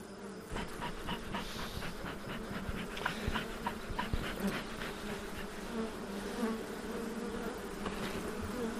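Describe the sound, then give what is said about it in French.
Honeybees buzz at their beehives in a continuous, fairly faint droning hum that wavers slightly throughout. “maintenant, on peut aller visiter les ruches.”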